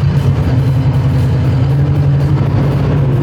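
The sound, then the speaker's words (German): A mountain maintenance vehicle with twin rear tyres runs its engine in a steady, loud, low throb that holds without pause for the whole stretch. “Das ist ein Samoli. Den braucht man im Sommer für die Schneckenhornrevision immer. Jetzt starten wir das Ding einmal.”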